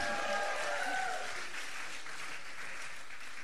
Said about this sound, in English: Give it up for the notaries, everybody.